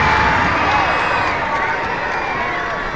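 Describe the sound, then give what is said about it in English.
Fans at a minor-league baseball game cheer after a ball is hit off the bat at 107 miles an hour. A dense, loud crowd roar holds steady throughout, with a commentator's voice mixed in. “This one 107 miles an hour off the bat, and it was productive. And the fans love it.”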